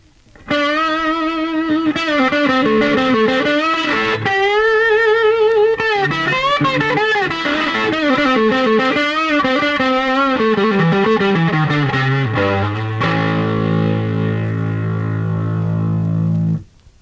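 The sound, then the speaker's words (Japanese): A heavily distorted electric guitar plays through an amp with volume, treble and bass all at 10 on the bass pickup. A loud, thick, sustained run of notes gives way to a low held chord that rings until it cuts off. “で、あとギターのピックアップをいろいろこう使い分けると、多少こう音が変わってくるわけです。 はい。 まあ、例えば、こう、全部10にして、ベースピックアップを使いますと、こういう音になります。”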